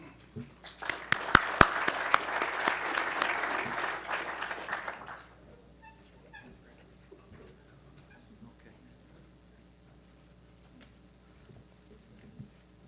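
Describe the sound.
An audience applauds to welcome a speaker with a burst of clapping that swells quickly, holds for a few seconds and then fades, leaving faint scattered claps and quiet room noise.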